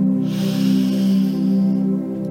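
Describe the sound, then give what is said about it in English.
A deep, slow inhale through the nose during a guided relaxation exercise, a steady airy breath that swells and fades over a sustained, low, droning musical tone. “Let's take a nice inhale to quiet the body.”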